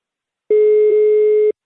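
Telephone ringback tone of an outgoing call: one steady, mid-pitched electronic beep lasting about a second, loud and clean with no voices over it.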